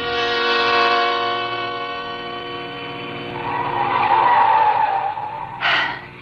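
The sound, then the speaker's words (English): A car speeds up a steep, winding mountain road with the gas pedal pressed hard. A loud, harmonic engine whine swells, tires squeal, and a brief sharp burst comes near the end. “We were driving too fast, but I knew that if I slowed down at all, I would begin to tremble. And so, although the road was tortuous, climbing steeply up the mountain, I kept my foot pressed hard on the gas pedal.”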